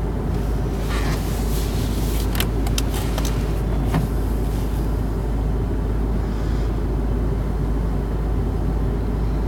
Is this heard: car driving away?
yes